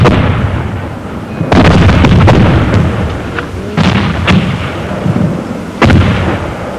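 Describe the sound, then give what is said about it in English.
Mortar explosions from a night-time attack in wartime jungle, loud heavy booms over a constant rumbling roar, with several sharp cracking blasts standing out at intervals. “Or the numbing terror of a mortar attack at night.”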